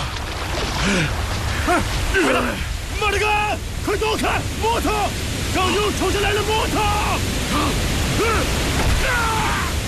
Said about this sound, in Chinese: 小心洪水下来，快上岸！快上岸！